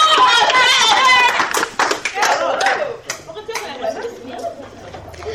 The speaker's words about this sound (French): Je ne peux presque plus vous répondre tellement le peuple acclame notre grand César.